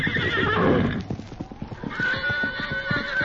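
Silver, the Lone Ranger's horse, lets out a loud whinny, then a steady run of clip-clopping hoofbeats follows until the end.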